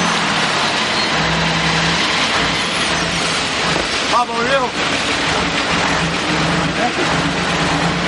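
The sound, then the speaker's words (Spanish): A truck's engine rumbles as it pulls up and stops beside a man walking on a seaside road, with a brief squeal midway and a voice talking over it. “De pronto el camión aparece tras él y se detiene a su lado.”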